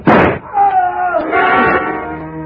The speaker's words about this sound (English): I didn't want to fire, but I had to, and fast in the darkness. Aim was next to impossible, but I shot low.